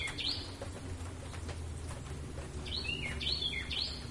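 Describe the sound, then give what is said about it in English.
A crested finch sings in a sunny field below mountains, giving a quick high chirp early on and then a short cluster of bright, sharp chirps toward the end over a steady low rumble. “I think that's Cleftorn's crest. It is. That's a Cleftorn crest finch.”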